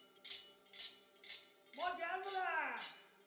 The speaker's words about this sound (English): One that does live on is the knife sharpener's cry and the clanking steel plates that the sharpeners use to announce their arrival.